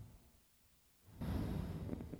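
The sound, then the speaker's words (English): A deep, audible breath during a breathing exercise: near silence at first, then a strong, steady rush of air that carries on to the end, soft in level overall. “I want to invite you to make an audible sound with your breath. Take a deep breath in.”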